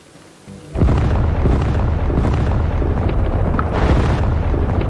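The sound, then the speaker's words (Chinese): Artillery bombardment explosions made as a drama sound effect, depicting the heavy shelling of a defensive zone in a 1948 assault on a city. A faint low rumble bursts suddenly into a loud, continuous roar of booming blasts that holds steady to the end, with no talking. “在猛烈炮击下，安守仁的防区被炸成一片火海。”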